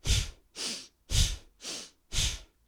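Forceful rhythmic breathing from a breathing exercise in a morning routine: five quick, strong breath bursts in an even pulse, with short silent gaps between them. The breaths are loud and airy, alone with no talk.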